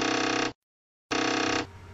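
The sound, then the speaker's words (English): Commodore 1541 disk drive head knocking while loading: two bursts of rapid, buzzy rattling split by a brief silence, the second easing into a quieter hum near the end. “the sound of the Commodore 1541's drive head banging against itself there can only mean one thing, and that is that the podcast is done loading”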